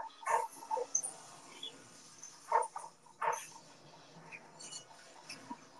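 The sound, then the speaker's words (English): Dog barking, a few short, faint barks in irregular bursts separated by quiet gaps, with softer yips in between. “So the dog is just barking at electricity?”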